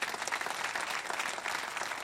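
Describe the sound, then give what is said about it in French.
Applause from an audience during a church sermon, a dense, steady clapping that fills the whole clip at an even level, with no voices standing out. “Que ceux qui l'ont vécu puissent applaudir notre Dieu.”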